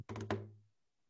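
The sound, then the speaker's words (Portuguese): A hand knocks on the side of an acoustic guitar's body: a quick flurry of a few hollow raps, then a short, low, woody resonance that fades away. Faint, with no other sounds. “Aqui, aqui é eu batendo no lado do violão.”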